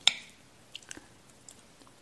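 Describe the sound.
Chewing fried chicken patties while cooking: one sharp bite at the start fades out, then a few faint, soft, wet squishes and smacks follow, with no talking.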